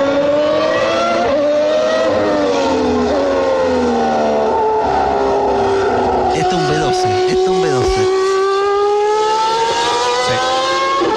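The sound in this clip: A Formula 1 V12 engine screams with a sustained high harmonic whine. Its pitch dips and climbs again as it shifts and revs, and the sound stays loud throughout.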